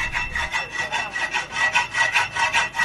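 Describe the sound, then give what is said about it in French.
Rasping, sawing-like strokes on metal in a welding workshop in the Kandagbe quarter of Parakou: many quick, even back-and-forth scrapes in a steady rhythm, with no other sound. “Ici, nous sommes dans un atelier de soudure au quartier Kandagbe dans le premier arrondissement de Parakou.”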